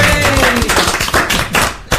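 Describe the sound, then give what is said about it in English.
Applause thanks the volunteers at a beer festival: loud, uneven clapping with scattered sharp taps and thumps, ending on one strong final hit. “Let's give a round of applause for them.”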